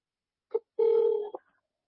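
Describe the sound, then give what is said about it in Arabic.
A phone call ringing out through the Botim app: a short electronic tone, then a longer steady tone that ends in a brief blip, heard alone against silence. “يلا طيب الآن اتصل على البوتين، بارك الله فيكم شيخنا.”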